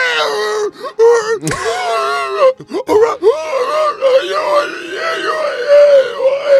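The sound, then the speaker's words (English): A voice imitates the creepy squealing-pig sound effect of a robot falling down stairs: a long, loud, wavering moan-like wail with sliding pitch and a few short breaks. “it has like this creepy squealing pig sound effect that they use.”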